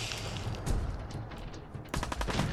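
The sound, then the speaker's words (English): Video game gunfire comes in fairly faint crackling bursts of quick shots, separated by brief lulls and backed by low rumbling, with no talk. “Are they, like, shooting something at me?”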